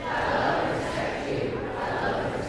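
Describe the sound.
Audience applause and cheering at an MLK Day community celebration, a dense, steady roar of many voices and hands that stays loud and even from start to end.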